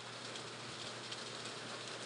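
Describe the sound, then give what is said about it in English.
Summer rain falls in New Mexico, a soft, even hiss of steady patter with no breaks, faint and uninterrupted. “It is raining. Our summer rains here in New Mexico.”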